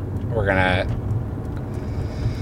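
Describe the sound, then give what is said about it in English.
A car driving along Westchester Pike, Route 3, in Pennsylvania, with a steady low road rumble and engine drone throughout, briefly overlaid by a voice. “Okay, so now we're driving through this what? This is Route 3. This is the road. The road. It's Westchester Pike.”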